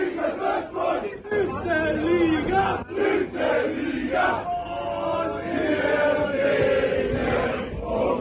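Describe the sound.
Football fans roar, chant and cheer in celebration after a promotion playoff match, a loud, dense crowd noise that carries on without a break, with many overlapping shouting voices throughout.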